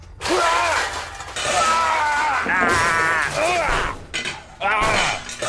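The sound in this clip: Potions smash in a video game as glassy shattering crashes. They are mixed with loud, excited voices talking over the game sounds.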